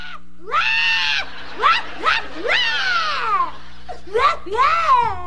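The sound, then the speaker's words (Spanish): A young girl cries in a series of loud, high, wailing sobs whose pitch slides downward, broken by short catches of breath. A low, steady hum sits under the crying throughout. “¿Pero por qué estás llorando, mija? Es que se acabaron las vacaciones.”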